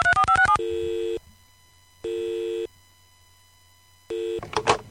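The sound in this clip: A telephone being dialed: a quick burst of keypad tones, then the ringing tone sounds three times in long, even pulses separated by silence, with a brief noisy sound at the very end.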